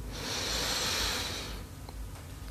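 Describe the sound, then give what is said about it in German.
A deep breath drawn in during a guided relaxation exercise: one slow, airy inhale that swells to a steady hiss for about a second and a half, then fades away. “Zweiten tiefen Atemzug und atme ein.”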